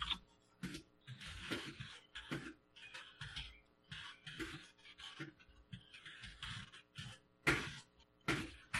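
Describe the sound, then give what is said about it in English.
Typing on a computer keyboard, entering an all-caps update: many quick, irregular key clicks in uneven bursts, fairly faint, with no talking over them. “I'm going to do one of those all caps update thing. It would help if I could type right.”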